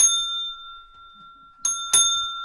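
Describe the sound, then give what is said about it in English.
An old mechanical doorbell from a former toll house rings with clear metallic tones that hang and slowly fade. There are three strikes: one at the start, then two close together near the end. “While we can't confirm it, it's possible travelers rang this old mechanical doorbell.”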